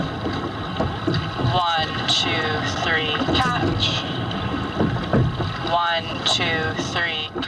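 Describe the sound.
Water and wind noise from a learn-to-row session in an eight-person racing shell on a lake, with steady splashing and wind buffeting throughout and voices talking over it.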